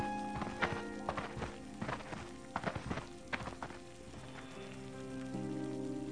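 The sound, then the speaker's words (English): Hooves of a riding mount in the video game World of Warcraft, a steady, fairly faint clip-clop trotting at an even pace over sustained musical tones. “I bought the damn mountain. Now I can ride away instead of running.”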